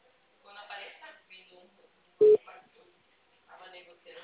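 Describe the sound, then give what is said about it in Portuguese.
A single short, loud telephone beep sounds after a call drops, set between stretches of people talking. “a ligação caiu. Você tá me ouvindo?”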